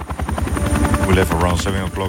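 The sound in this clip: A helicopter flies in South America, its rotor pounding in a fast, steady rhythm over a loud, dense engine roar that stays strong for the whole stretch.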